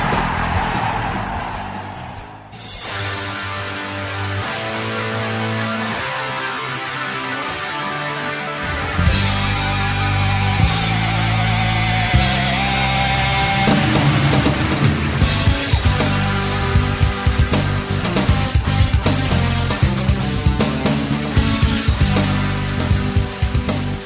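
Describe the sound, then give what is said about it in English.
A loud, dense electric guitar intro in a rock style plays alone for about twenty seconds, with a quieter opening that swells into a fuller, sustained, distorted sound partway through. “Guitar sound, it gets me going, Art.”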